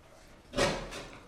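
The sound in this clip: A door being opened as someone heads over to answer it: a brief, moderately loud clunk followed by a softer second sound, with no talking.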